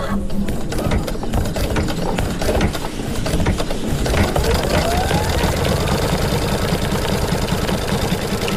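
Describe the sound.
An embroidery machine in a maker lab stitches a dog design onto a T-shirt, a fast, even mechanical clatter of needle strokes that runs steadily and loudly throughout.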